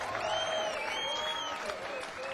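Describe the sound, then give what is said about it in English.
Concert crowd applauding the support band: steady, dense clapping mixed with cheering and a high, wavering whistle-like cry, holding a fairly even level throughout. “Can you do me a big favor and give a big applause for the support band here tonight?”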